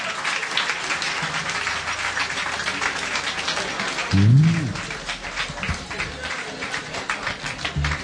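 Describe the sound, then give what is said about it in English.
Audience applause fills a live concert hall: dense, steady clapping runs the whole stretch without pause. A brief low tone swells near the middle. “Put your hands together for the Lord.”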